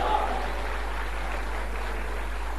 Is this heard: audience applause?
yes